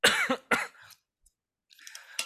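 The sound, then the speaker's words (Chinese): Coughing after choking on a sip of water: a cluster of sharp, harsh coughs in quick succession, then a quiet pause and one more cough. “我刚刚不小心喝水呛到。”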